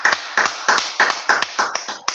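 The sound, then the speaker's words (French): A church audience claps while acclaiming God, striking steady, rhythmic claps roughly in unison with short gaps between each beat. “Est-ce qu'on peut encore acclamer notre Dieu?”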